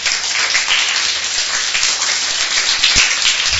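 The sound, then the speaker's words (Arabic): An audience claps for one of its members in steady, dense applause that stays even and loud throughout with no gaps. “انا عايز سقفه لكلارا بصراحه”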